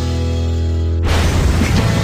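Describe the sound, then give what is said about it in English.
Explosion sound effect: a steady humming tone breaks off abruptly into a loud, rough blast that keeps roaring to the end, with no voices. “Big explosion.”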